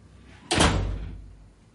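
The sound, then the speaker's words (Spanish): A door closes with a single firm thud that rings out and fades over about a second. “La puerta se cierra.”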